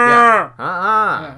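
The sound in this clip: A voice imitates a cow mooing, giving two drawn-out, low, groaning moos separated by a brief pause, loud and alone.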